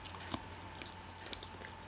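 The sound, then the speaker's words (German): Faint, moist chewing of bread spread with cream cheese, a few soft bites and crunches scattered over a quiet background. “weil ich ein Brot mit Frischkäse anstatt einer Milchschnitte esse.”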